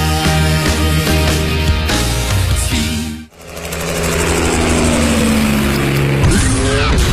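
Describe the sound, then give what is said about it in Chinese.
Engine roar of a sports car with a V8, all-aluminium petrol engine and full-time all-wheel drive: loud sustained revving that dips sharply once partway through, then builds again with rising, sweeping harmonic tones. “车身线条大胆前卫，配备 V 八引擎，全时四驱系统，全铝汽油发动机，最高时速超过每小时300公里”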